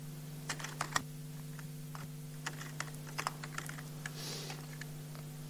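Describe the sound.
Sparse, irregular keystrokes on a computer keyboard as code is typed: scattered clicks and taps, some in short bursts, over a steady low electrical hum, with no talking.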